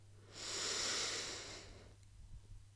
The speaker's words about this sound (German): Und dann nimm noch einen letzten tiefen, bewussten Atemzug ein über die Nase